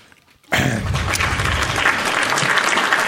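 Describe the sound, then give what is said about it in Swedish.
Applause from a crowd at a live show, starting abruptly after a brief near-silent moment and continuing as a steady, dense clatter of clapping at an even level to the end. “Ja, vi gjorde en applåd. Vi körde en applåd.”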